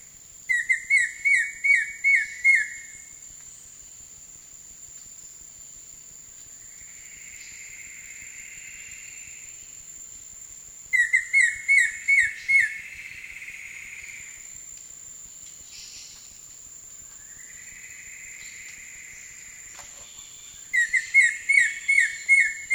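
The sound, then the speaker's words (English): White-shouldered antbird song in three bouts of rapid, evenly spaced high whistled notes, each lasting a few seconds. Long gaps between bouts hold a steady high insect drone and softer buzzy calls. “White-shouldered ant bird.”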